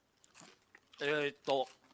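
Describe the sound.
A few faint crunchy bites and chews of a thin, short sweet potato vegetable stick, then two short vocal murmurs from the eater.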